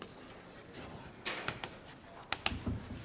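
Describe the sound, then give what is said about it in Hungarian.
Handwriting while working out an equation: faint, scratchy rubbing strokes broken by a few sharp taps, irregular in rhythm, over a quiet background with no talking. “És ezek után tehát azt írom hasonlóan”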